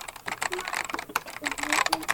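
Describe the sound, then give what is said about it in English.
Typing on a computer keyboard: rapid, irregular clicks of many keystrokes in one short, continuous, fairly faint burst. “I'm typing in the computer right now”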